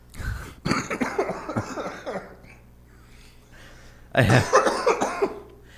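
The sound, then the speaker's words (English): Wet coughing up phlegm mixed with laughter, in two rough bursts of rapid, rasping hacks separated by a quiet pause. “Or maybe that's phlegm. Could be phlegm.”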